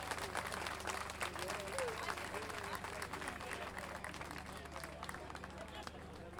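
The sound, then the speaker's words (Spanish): Audience applause for the children at an international gathering of payadores in San José de Maipo. The clapping is dense and sustained, staying steady from start to end, with voices mixed into the crowd noise. “Un aplauso más fuerte para ellos, entonces.”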